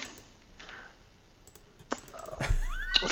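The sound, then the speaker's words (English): Sparse keyboard typing with a few soft, separate key clicks over a quiet background, followed by a louder rumble and a brief squeaky, wavering tone at the end. “Everyone loves listening to people type.”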